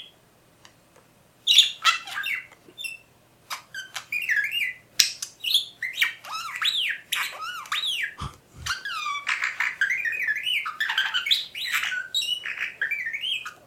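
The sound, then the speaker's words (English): A budgie imitates robot beeping sounds with high, rapid electronic-like chirps, sweeping whistles and warbles in many quick bursts, alternating with brief pauses, clear and fairly faint. “And they played him only 4 or 5 times audio clips of R2-D2. And Budgie learned how to reproduce these sounds.”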